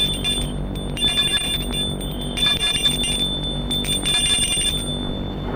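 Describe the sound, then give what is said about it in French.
A house doorbell rung repeatedly with no answer, heard as repeated bursts of bright, high electric ringing over a steady hum, with no talk. “Pas de réponse. Il sonne plusieurs fois.”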